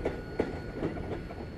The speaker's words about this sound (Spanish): pero el tren ahora se mueve más rápido que él